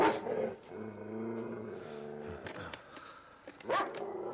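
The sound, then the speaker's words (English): A Great Dane dog growls in a low, rumbling voice, a few drawn-out growls with some sharp noises in between, faint and without talk. “Anne cautiously walks past the growling dog and heads into the bedroom”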